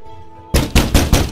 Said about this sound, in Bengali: বারপাচেক ধাক্কানোর পর শরীরের সবটুকু শক্তি একত্র করে সমস্ত শরীরটা দিয়ে দরজায় আঘাত হানে বেন তবুও নিরেট কাঠের দরজাটাকে